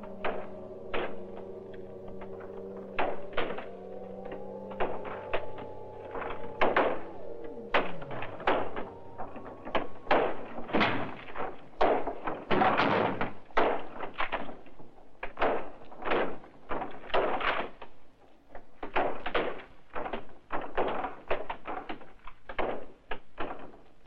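Zombies trying to break in: many loud, irregular bangs and knocks in uneven bursts, with low, moaning tones in the first several seconds.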